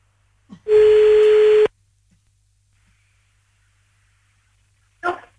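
A single telephone ringback tone sounds as a call is placed: one steady, clear, pitched beep lasting about a second, followed by silence and a brief faint sound near the end.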